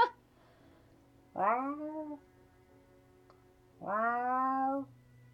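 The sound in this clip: A cat gives two drawn-out meows, well separated and each falling in pitch at the end. The background between them is quiet.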